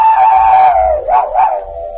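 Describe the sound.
A man's voice imitates a dog howling: one long, sustained, fairly high tone that sags slightly, wobbles twice, then settles and holds, with no other sound around it.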